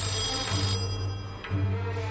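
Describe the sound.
A telephone rings loudly and continuously, its trilling bell pulses running through the whole clip with no voices.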